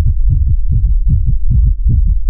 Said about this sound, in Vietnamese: Lại một trận tiếng tim dồn dập truyền đến